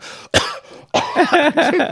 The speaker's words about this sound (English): You're coughing up blood again.